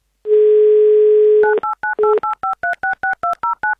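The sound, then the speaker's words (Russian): A telephone number is dialed: a steady dial tone sounds first, then a rapid series of many short, evenly spaced two-pitch keypad beeps follows, loud and clear with no talking. “Давайте узнаем у нее лично, наберем ее номер.”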